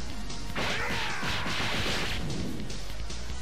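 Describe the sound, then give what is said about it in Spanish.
Punch combo hits land in the Hyper Dragon Ball Z video game: a sudden flurry of sharp smacking impacts and swishes starts about half a second in, then trails off into rapid, lighter strikes. “Con la D hace como un combo de golpe Ahí le pegué, lo ¿Vieron?”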